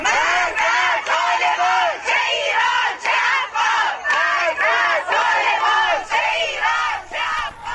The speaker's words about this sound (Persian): این صدای خانواده های معترض است در تجمع مقابل آموزش و پرورش منطقه 2 تهران.